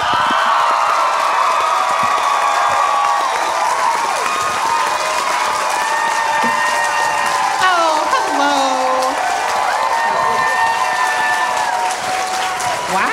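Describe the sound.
An audience gives a standing ovation for a guest's introduction at a live show: loud, sustained applause with cheering and whoops that keeps a steady level without letup.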